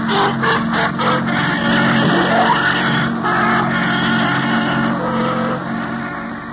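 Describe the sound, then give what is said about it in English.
A taxi cab's engine is heard as the car drives away: a steady mid-pitched hum with a brief rising whine near the middle, easing slightly toward the end. “Frank get into the cab and drive away”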